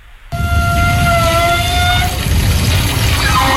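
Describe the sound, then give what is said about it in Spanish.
Water rushes from an outdoor shower on the beach promenade at Las Canteras, starting abruptly as a loud, steady hiss, with a high squealing pipe tone riding over it for the first couple of seconds. “para mí es una ducha del paseo de la playa de Las Canteras, que suena así”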